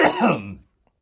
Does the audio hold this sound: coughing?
yes

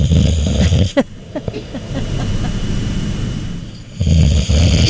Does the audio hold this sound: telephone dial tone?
no

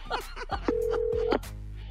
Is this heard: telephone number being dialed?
yes

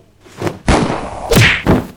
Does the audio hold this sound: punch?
yes

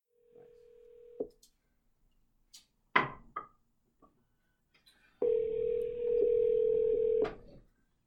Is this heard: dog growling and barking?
no

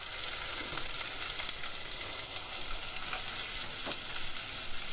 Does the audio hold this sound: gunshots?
no

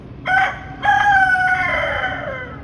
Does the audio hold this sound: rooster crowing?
yes

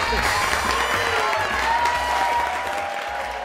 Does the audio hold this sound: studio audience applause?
yes

